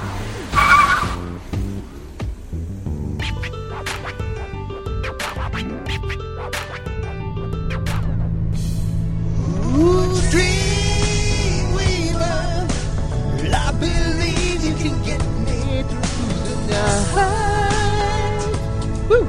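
A car driving off at speed. The engine revs and climbs in pitch, and tires squeal and skid through the latter half. The sound is loud and sustained.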